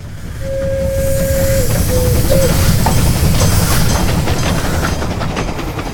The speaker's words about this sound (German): Ein relativ junges Verkehrsmittel, die Eisenbahn, überbrückt bald die riesigen Distanzen in Nordamerika.